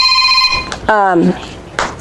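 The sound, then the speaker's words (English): A mobile phone rings with steady electronic tones for under a second. A short voiced sound follows, then brief noisy bursts. “Sorry, my phone's ringing. I'm going to have to turn it off.”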